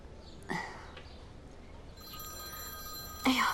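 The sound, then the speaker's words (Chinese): A telephone ringing: a faint electronic ringtone of several steady, sustained tones starts partway through and holds to the end, with a couple of brief louder rustles or knocks before it and at the close. “对不起，我接个电话，你们先聊啊。”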